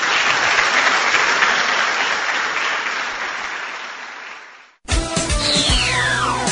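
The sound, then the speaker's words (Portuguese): A church audience applauds after a sermon with dense, steady clapping that slowly thins and fades, then cuts off abruptly into a different sound. “Vamos aplaudir o nosso Senhor.”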